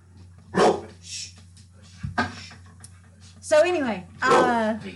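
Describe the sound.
A dog barks a few times in short, sharp bursts, with a longer, whining yelp near the end. People's voices are around it.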